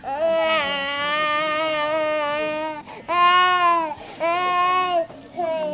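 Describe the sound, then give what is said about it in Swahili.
An infant cries in an inpatient ward for critically ill patients at a health centre in a refugee camp. It gives loud, sustained wails: one long cry, then three shorter bursts with brief breaths between them. “Mtoto akilia akiwa katika wadi moja ya IPD, yaani wagonjwa mahututi”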